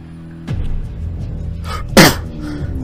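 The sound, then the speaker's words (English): A single sharp human sneeze bursts out loudly near the end, after a stretch of quieter rustling and low background noise. “As you hurriedly try and cover your mouth and nose again, but a sneeze comes out.”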